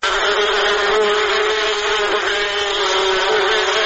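Honeybees buzzing at a bee farm in Kunduz, a loud, steady droning hum that stays level and continuous throughout, with no voices.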